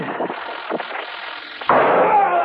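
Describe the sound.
Gunfire in a few bursts: two short sharp pops, then a sudden louder, sustained blast of noise that carries on to the end.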